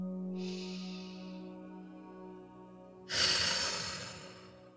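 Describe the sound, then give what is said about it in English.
A deep breath: a soft, hissing inhale, then after a pause a longer and louder exhale, all quiet over a low, steady hum. “let's all take a big, deep breath.”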